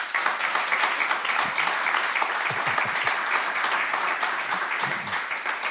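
Audience applause fills the hall as listeners vote by clapping for an orchestral recording: a steady, dense patter of many hands, with a few heavier claps standing out partway through.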